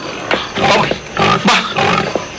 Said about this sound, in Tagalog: Baboy, kag nagasugata siya sa akon. Baboy na nagabakya!